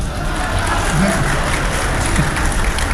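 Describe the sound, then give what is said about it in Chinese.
Audience clapping at a comic crosstalk stage performance: loud, continuous applause over a heavy low rumble, with brief indistinct voices surfacing in the crowd. “几位几位，别瞎给鼓掌，哪儿您就鼓掌来了？”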